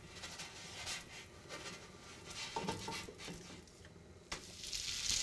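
Okonomiyaki sizzling on a griddle as it is flipped, a faint, steady frying hiss broken by a few scrapes and clinks of a utensil, with a sharper knock near the end.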